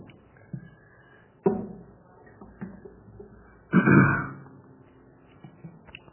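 Coughing and throat clearing from a man blaming smoke inhalation at a church Bible reading, a few separate rough coughs with quiet gaps between them, and a longer, louder hacking burst in the later part.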